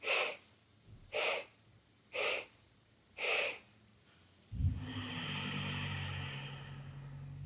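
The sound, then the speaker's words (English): Breathing exercise: four short, evenly spaced inhale sniffs, each a soft breathy burst, followed by one long, steady exhale that holds a low rushing tone to the end. “if you imagine your lungs almost have 4 parts that you're slowly inhaling, 1/4, 2/4, 3/4, full, and then then 1 breath out. So it looks like this.”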